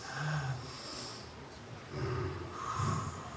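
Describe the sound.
A group inhaling deeply together, a faint, breathy rush of air in a few slow swells with no talk.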